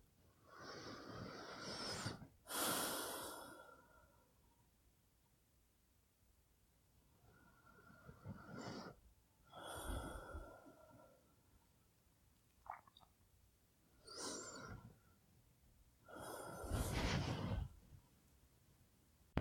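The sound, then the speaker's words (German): Deep breathing: a few slow breaths in and out, each a soft, airy rush of air with quiet pauses between, heard alone without talk. “Dann tun wir das jetzt einfach mal, also dreimal tief ein- und ausatmen.”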